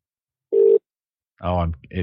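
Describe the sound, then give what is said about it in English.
A single short, steady beep sounds on a phone line as a call switches over to a phone. A pause follows, then a man starts talking. “It cut over to his phone. This could be interesting. No, it failed.”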